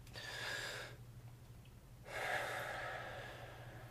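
Deep breathing during a hypnosis session, two slow, breathy breaths separated by a quiet pause, each a soft rushing of air that swells and fades, heard faintly over a low steady hum.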